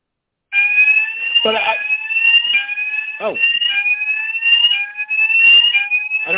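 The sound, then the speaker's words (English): A fire alarm going off in a false alarm, loud and shrill, its electronic tone repeating in steady pulses about once a second, each with a slight upward glide, while a voice is briefly heard under it. “is that a fire alarm? Oh, I know what I did. Hold on. False alarm.”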